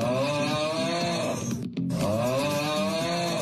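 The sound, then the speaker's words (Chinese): A person snoring while asleep makes a loud, rough, buzzing drone that breaks off in a short gap partway through and then resumes with the same rattling tone. “咱们呢，接下来就听一听各种呼噜声，哪些是有事儿的，哪些是没事儿的。 睡觉的时候听听他的呼噜声。”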